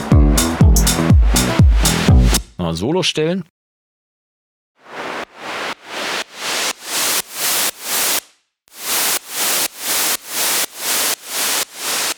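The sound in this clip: Sidechain pumping effect on a hissy synth: steady quarter-note pulses that swell and then cut off sharply, repeating many times. It follows a brief stretch of music and a short spoken phrase.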